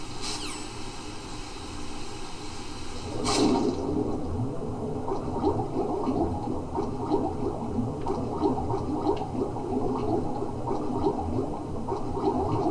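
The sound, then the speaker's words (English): Underwater swimming in a stealth action video game: a continuous muffled bubbling and gurgling wash, with one brief sharp burst early on before the steady watery churn settles in. “Swimming. We're swimming.”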